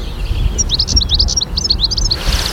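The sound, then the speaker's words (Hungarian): European goldfinch singing a high, fine song: a quick run of many thin, twittering chirps lasting over a second, over a steady low rumble. “Tengelic, halljátok a tengelicet? Az a magas, finom ének.”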